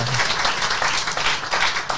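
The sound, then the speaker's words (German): Clapping during a studio show, a dense, steady crackle of hand claps that stays at an even level for a couple of seconds, with no clear talking over it. “Ja, gibt nichts Beschisseneres in so einer Show, einer nur immer so einer nur klatscht.”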